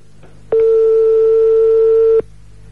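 Ringback tone of a telephone ringing on a live call: a single steady mid-pitched electronic tone that starts abruptly, holds loud and even for under two seconds, then cuts off into a faint background hum.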